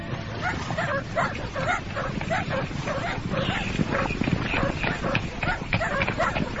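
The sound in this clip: Hunting dogs bark as a pack during a hunt on a mountain at nightfall, with many overlapping barks and yelps running continuously and densely throughout.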